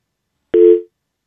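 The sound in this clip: A telephone busy tone after a caller's line drops, heard as a single short mid-pitched beep with a click at its onset that fades quickly, alone and without talk.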